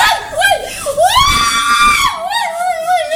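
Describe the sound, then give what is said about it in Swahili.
Mourners wailing in grief at a Catholic church in Mikindani, Mombasa: a loud, continuous high crying voice whose pitch wavers up and down, sustained almost without pause. “Kilio na huzuni mkubwa umetawala mazingira ya kanisa hilo”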